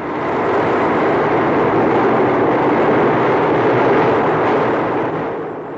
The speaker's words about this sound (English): operating these two diesel engine generators that purr like this.